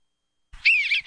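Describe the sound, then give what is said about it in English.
An Eastern Bluebird sings one short, soft warbling phrase of high whistled notes, preceded by a faint low thump. “Wondering what's singing in your backyard? That's the song of the Eastern Bluebird.”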